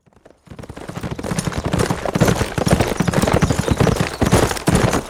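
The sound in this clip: Many horses' hooves clop in a dense, rapid, uneven rhythm as a large group of armed riders comes into a town, loud and steady throughout.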